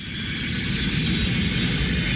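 Airplane engine noise inside the cabin: a steady, even roar with a deep rumble that holds constant throughout, with no voices.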